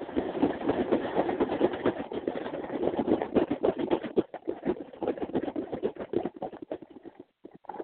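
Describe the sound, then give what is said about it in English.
Dense, rhythmic crinkling and rattling as a plastic blind bag of My Little Pony toys is kneaded and shaken. The busy, steady rustle of small figures knocking together eases off near the end. “I'm kneading the blind bag, and then I'm going to give it another shake.”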